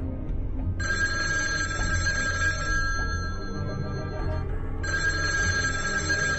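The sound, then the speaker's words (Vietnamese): A telephone rings in two long bursts of a bright, steady electronic tone separated by a short pause, over a low background hum. “Chuông điện thoại reo vang.”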